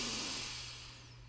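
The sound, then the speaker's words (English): A slow, deep breath during a guided breathing exercise, a soft, airy hiss that fades steadily over about a second and a half, with no talk. “And our third third breath in, breathe in”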